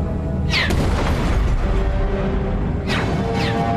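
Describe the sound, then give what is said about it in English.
Energy-based artillery fire in a sci-fi battle scene in a landing bay: two sharp, sweeping bursts cut through a steady, loud, rumbling roar of noise. “That was subtitled as artillery fire.”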